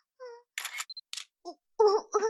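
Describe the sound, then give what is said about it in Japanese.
Camera shutter clicks as photos are taken, a few brief crisp bursts interleaved with short vocal sounds in an otherwise quiet clip. “写真も撮ってくださってありがとうございます。”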